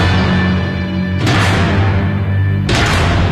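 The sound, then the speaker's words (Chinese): Explosions in a sound effect of a bombing attack near Liutiaohu. A loud, continuous low rumble is broken by two sudden, harsh blasts about a second and a half apart, with no voices. “柳条湖一带的爆炸声惊醒了他们，隆隆的炮声越来越近”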